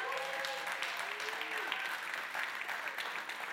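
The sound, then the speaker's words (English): A church audience applauding the Meeker campus, steady sustained clapping throughout, with a voice briefly audible over it. “Why don't you all give Meeker campus a big hand?”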